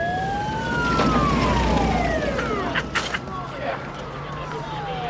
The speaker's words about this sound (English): Later, as night falls, a stretcher crew lift Fletcher into an ambulance.